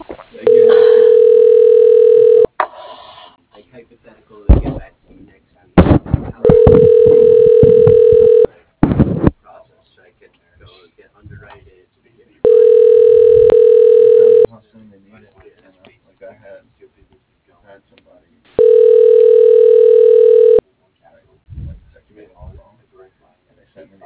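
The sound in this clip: Telephone ringback tones sound while a call is transferred to a company executive's line: four long, steady, even-pitched rings of about two seconds each, separated by gaps of near silence with a few faint clicks.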